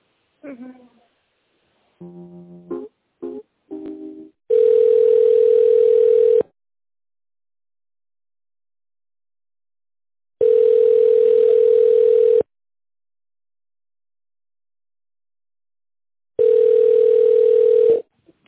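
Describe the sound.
Ringback tones play as a telephone call is transferred to a tender department: three long, steady, mid-pitched hums of about two seconds each, separated by silent gaps of roughly four seconds.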